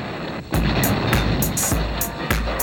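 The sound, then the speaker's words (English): Artillery strike in a video game: several heavy booms with sharp, crackling bursts, repeating at a fairly steady rhythm over a constant rumbling background, with no voices. “This is Victor Alpha 1. Artillery strike is initiated.”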